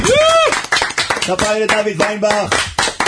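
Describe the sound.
An audience claps at the close of a music show, with quick, crisp hand claps mixed under a prominent voice that carries over much of the clapping.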